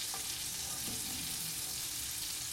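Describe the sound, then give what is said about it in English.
About a tablespoon of butter sizzles in a hot pan while being stirred with a wooden spoon, giving a steady, dense hiss and crackle that holds evenly throughout without voices. “And I'm going to add about a tablespoon of butter. Quickly stir that around the pan with a wooden spoon.”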